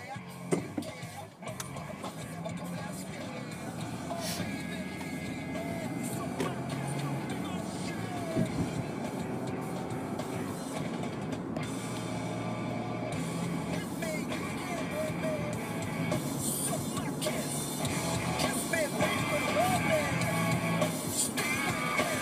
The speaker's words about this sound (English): Sweeper up here weaving back and forth across the street, or like across this lane and the bike lane.